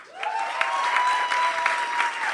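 Brief audience applause greets a comedian joining a panel onstage, a dense, even patter of clapping that rises quickly and stays steady, with a sustained high whistle-like tone running through it.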